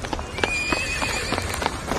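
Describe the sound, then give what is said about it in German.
Horse hooves clatter quickly as riders gallop across a square, many sharp hoofbeats in a fast, steady rhythm. “Zwei von ihnen reiten bereits schnell über den Platz.”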